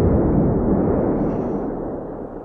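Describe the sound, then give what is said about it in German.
A remote-detonated bomb goes off in a room deep below the water level, blasting open a rock wall: a deep, sustained rumbling roar that stays loud and slowly fades, with no voices. “Meine Bomben in Caligaris Zimmer tief unter dem Wasserspiegel haben die Felswand aufgerissen”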